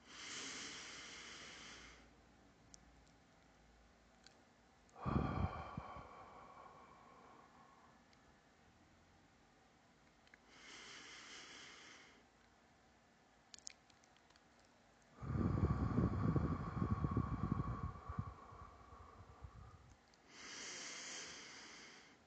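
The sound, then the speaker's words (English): Slow, deep breathing during a four-count box breathing exercise: several drawn-out breaths, with airy hissing inhales and heavier, lower exhales separated by quiet holds. The breaths are soft and unhurried. “You breathe in for four, hold for four, breathe out for four and hold for four.”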